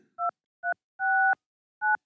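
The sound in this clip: Telephone keypad tones as a number is dialed: five clear two-pitch beeps in an uneven rhythm, the third held noticeably longer, heard alone against silence.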